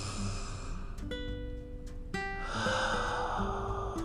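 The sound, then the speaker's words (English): A slow, deep breath in and out during a guided relaxation exercise. A soft, airy rush swells louder partway through, over gentle sustained tones of background music. “So let's inhale. Exhale. So inhale flower.”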